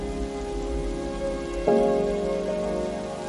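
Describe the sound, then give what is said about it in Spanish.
Heavy rain pouring down on a man standing in the middle of a street. A steady, dense patter and hiss continues throughout at a moderate level, with no voices. “La lluvia chorrea sobre el hombre.”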